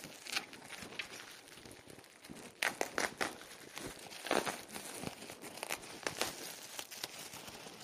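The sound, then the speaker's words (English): Crinkling, crackling plastic as bubble wrap is unwrapped from a package holding windscreens, irregular rustles with louder bursts of crumpling in the middle and later. “I'm unwrapping the bubble wrap. There are the windscreens in a Ziploc type bag.”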